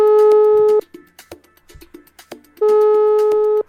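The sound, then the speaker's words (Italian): A telephone ringback tone as a call is placed: two long, steady beeps, each lasting about a second, separated by a pause of about two seconds that holds faint clicks and rustles. “Faccio una chiamata, un po' che non chiamo più qualcuno,”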